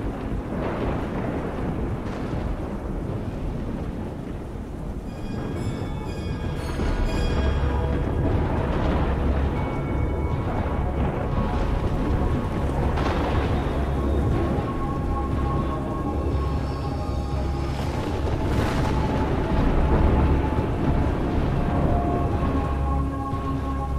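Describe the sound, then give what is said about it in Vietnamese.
A thunderstorm with lightning striking a pagoda roof: steady rain hisses throughout, joined after the first few seconds by deep, sustained rumbling thunder that rolls on loudly to the end. “giữa cơn mưa gió, một tia sét màu xanh lè giáng thẳng xuống ở trên chóp của ngôi chùa. Những tia lôi điện giật đèn đẹt ghê rợn, tia sét to giáng xuống phá tan nóc của ngôi chùa.”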